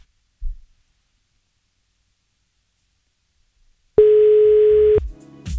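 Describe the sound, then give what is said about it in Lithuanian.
Telephone ringback tone heard while calling, a single steady buzzing ring lasting about a second after a long silence, loud and alone with no talk. “bet pabandykime susisiekti su Violeta. Kaipgi čia bus, ar atsilieps?”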